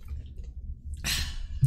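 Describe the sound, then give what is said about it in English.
A beer is chugged right into the microphone: a single short, noisy gulping burst that follows a near-silent pause. “There's your ASMR, guys. Beer chug in the mic. Classic ASMR.”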